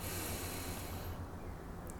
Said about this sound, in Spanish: llenamos la panza y exhalamos. Sí, puedes exhalar por la boca, como si fuera un tubo.